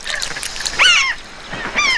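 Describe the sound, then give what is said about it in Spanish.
Waterbirds call over shallow river channels. Two louder bursts of squawking, chattering calls stand out, with fainter calls and a soft background murmur between them. “Esos canales poco profundos ofrecen un festín a varias aves hambrientas.”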